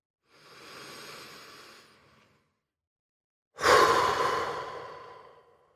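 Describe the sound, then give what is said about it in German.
A loud exhale through the mouth during a relaxation breathing exercise: a long, breathy rush that starts abruptly and fades over about two seconds, preceded by a softer, quieter breath. “Atme durch die Nase ein und laut durch den Mund aus und entspanne dich dabei.”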